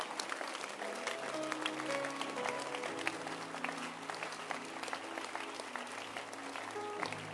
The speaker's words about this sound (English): I'm happy you stood up to clap your hands.